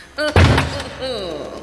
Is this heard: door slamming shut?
yes